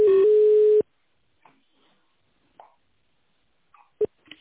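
Telephone ringback tone on a call being transferred: a loud, steady tone of just under a second that cuts off abruptly, followed by near silence broken by a few faint, brief clicks.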